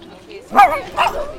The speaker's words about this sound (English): I'm playing with the puppy and it makes me so happy.